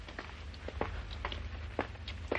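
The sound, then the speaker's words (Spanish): Footsteps of a butler walking away in a 1940s drama film: a few soft, evenly spaced steps, faint over a steady low hum. “El mayordomo se retira.”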